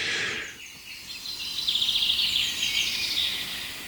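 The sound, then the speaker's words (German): Birds sing on an overcast, cloudy morning: high, bright chirps and a quick rattling trill carry on steadily for a few seconds, with no talk. “Und viele schöne andere Vögel nutzen diese bewölkte, verhangene Morgenstunde, um der Welt zu sagen, wer sie sind.”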